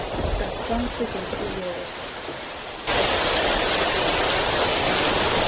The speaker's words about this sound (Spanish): ya me distrajo el sonido de la lluvia